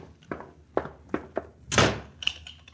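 A closet door in a prison slams shut and is locked: a few dull knocking thuds lead into one louder, rushing slam, followed by a sharper latch-like click.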